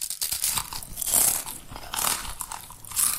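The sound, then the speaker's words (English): Crisps being eaten with loud, bright crunches: a few bites and chews repeat in a loose rhythm, with crackly chewing noise between them. “I'm going to talk crisps for a moment, okay? Because crisps are probably the noisiest thing that you might eat.”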